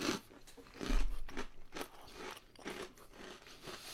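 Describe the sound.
Biting into a cold meat-free patty: faint crunching bites followed by soft chewing, a few irregular crisp bursts with no talk.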